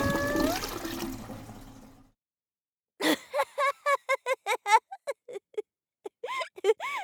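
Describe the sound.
A toilet flushes after its button is pressed: rushing, gurgling water pours for about two seconds and dies away, then after a pause a voice speaks in short bursts.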